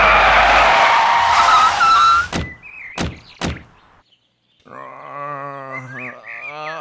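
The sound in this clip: A Humvee skids with a loud tire screech as it runs someone over. The screech lasts about two seconds and is followed by three sharp thuds, a brief silence, and then a wavering cry.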